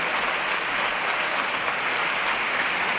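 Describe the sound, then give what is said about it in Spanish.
A carnival audience gives a comparsa an ovation after its pasodoble: dense, sustained applause that holds an even, loud roar throughout. “Bueno, vaya ovación”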